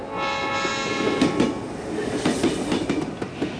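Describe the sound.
A train runs on rails with a steady rolling rumble and irregular clattering knocks over it. The sound stays moderately loud throughout, with no talk.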